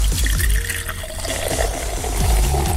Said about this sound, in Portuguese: O copinho só enchendo do remédio.